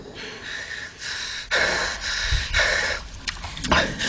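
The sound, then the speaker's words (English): Heavy panting from someone out of breath: many rapid, breathy in-and-out gasps follow each other unevenly, loud and harsh, with no speech over them. “You having a little trouble catching your breath there?”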